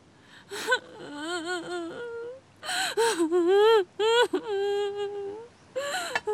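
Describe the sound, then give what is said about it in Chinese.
A person crying in wavering, high-pitched sobbing wails, broken into many bursts with short catches of breath between them, fairly loud and uneven. “哭。别哭了，你还哭啊？”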